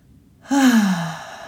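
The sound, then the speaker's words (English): A deep breath out, heard as a single voiced sigh that begins abruptly and slides gently down in pitch over about a second before trailing off. “Okay, take a deep breath.”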